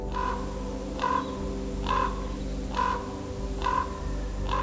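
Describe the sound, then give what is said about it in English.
A raven gives deep, throaty croaking calls, repeated in an even rhythm about once a second. Each call is a harsh, short note over a steady low hum. “Whereas a raven is more likely to make a deeper, throatier sound, a kind of croaking sound. It sounds something like this.”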